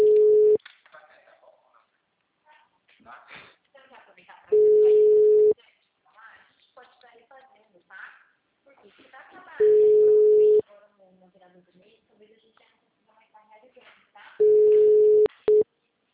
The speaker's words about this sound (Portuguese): Não vai atender, eu acho. O número está ocupado.